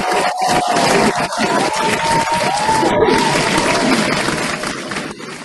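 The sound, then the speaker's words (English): Loud, sustained audience clapping rises during a casual conversation and stays dense and even throughout, easing slightly at the end. “Oh, we just gotta clap it up. Connoisseurs, clap it up for”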